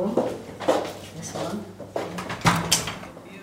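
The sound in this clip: A door leading out onto a balcony of King Hussein's former home opens with a brief clunk and rattle, heard amid people talking.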